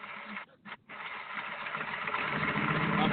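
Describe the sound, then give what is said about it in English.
A voice imitates a broken-down motor with a steady, buzzy, sputtering drone. It breaks off briefly a couple of times near the start, then runs on unbroken and grows slightly louder. “I'm making broken down motor sounds with my mouth.”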